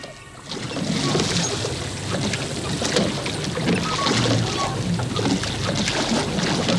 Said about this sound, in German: Können wir also aufhören mit Rudern? Ja, Boys, hört auf.